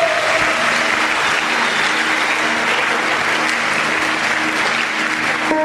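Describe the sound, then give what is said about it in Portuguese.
A church audience applauds at a service, a dense, loud, sustained roar of many hands clapping at an even level throughout. “Put your hands together for God. Palmas para Deus.”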